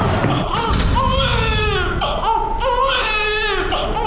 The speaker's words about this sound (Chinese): 你听这哭声，多有劲，多嘹亮，孩子肯定是健康的